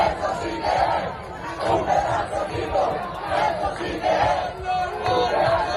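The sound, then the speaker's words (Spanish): Roughly 200 basketball fans chant to welcome their team at Tenerife Norte airport after a historic ACB quarter-final series win. Massed voices rise and fall in a steady, rhythmic chant at a moderate level, with crowd chatter underneath. “este era el sonido este domingo en el aeropuerto Tenerife Norte.”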